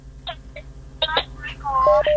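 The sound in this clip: Telephone tones on a radio call-in line, short electronic beeps that end in a few steady flat tones near the close, mixed with a voice talking.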